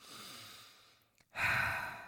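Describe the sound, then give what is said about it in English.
A deep breath drawn in: a softer breathy stretch of air, a brief pause, then a louder, fuller rush of breath that holds steady to the end, with no voices. “I'm going to take a deep breath in.”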